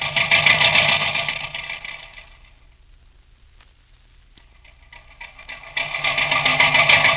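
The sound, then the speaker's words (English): A tractor motor runs loudly with a steady clattering drone, drops to a low idle for a few seconds, then comes back up to full volume. “Hey, shut off that motor so I can hear you. Shut off that darn motor.”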